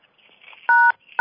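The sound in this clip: Telephone keypad tones sound on a conference call as the host mutes all callers: two short dual-tone beeps, the second cut off at the end, following faint low background noise.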